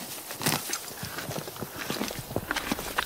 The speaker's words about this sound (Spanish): Todo está en orden. Los caballos pastan tranquilos,